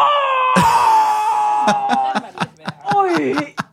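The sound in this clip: A man lets out a pained, drawn-out voiced groan on an exhale during a stretch, followed by a series of short, strained vocal bursts.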